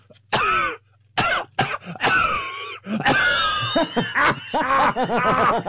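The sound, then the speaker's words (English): A person imitates another man's coughing with a series of harsh, throaty bursts separated by short pauses, then a longer raspy stretch of hacking and wheezy, pulsing vocal sounds. “do your dad's coughing again, because that was really impressive”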